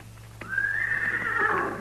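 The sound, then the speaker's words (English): A horse neighs once: a single high, shrill whinny that rises sharply and holds, slightly wavering, for over a second at moderate loudness with no talk. “That's his horse, too.”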